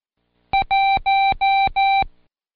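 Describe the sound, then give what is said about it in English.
Morse code for the number one keyed as clear electronic tones: one short beep followed by four longer beeps at a steady, fairly high pitch, loud and alone. “trace the number one as I key it and repeat, I won, won, won, won each time you hear the code.”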